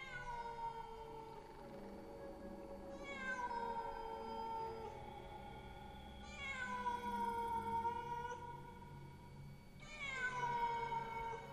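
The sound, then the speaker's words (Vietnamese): Cats yowl mournfully in several long, drawn-out cries, each sliding downward in pitch. The cries are faint, overlap a little, and no voices are heard. “Trong không gian bây giờ vang lên những tiếng mèo gào kêu lên vô cùng thảm não.”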